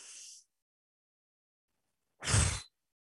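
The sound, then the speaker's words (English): A loud, forceful exhale of breath during a guided relaxation breathing exercise: a full, rushing whoosh that follows a fainter, hissy breath and a stretch of silence. “And exhale loudly all the thoughts that are constricting you. One more time.”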